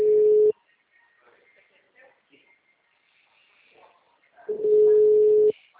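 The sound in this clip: Two ringback tones sound while a telephone call is being placed. Each is a steady mid-pitched buzz, the first short and the second about a second long, separated by a quiet gap with faint background noises.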